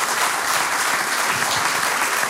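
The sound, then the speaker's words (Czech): An audience claps for a quiz contestant who has just answered correctly, a steady, even burst of many hands applauding without pause at a moderate, constant level. “No tak my vám tleskáme, Teresko, 2-0.”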